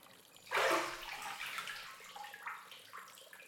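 Water surges and splashes as someone climbs out of a hot bath: one sudden loud rush of sloshing, then smaller, fainter splashes and lapping.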